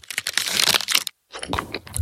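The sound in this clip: Crackling, fizzy crunch of the minty bubbles in a mint Aero chocolate bar, a dense brittle crackle that breaks off briefly and then resumes.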